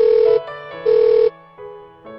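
A telephone rings as one friend calls another: two bright electronic ring bursts, each about half a second long, separated by a short gap, then softer, lower ringing tones.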